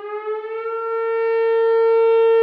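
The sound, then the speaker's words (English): An old emergency siren sounds a steady, harmonic wail that holds one pitch throughout while growing slightly louder toward the end. “Fire Chief Chris Kazian is making do with an old emergency siren”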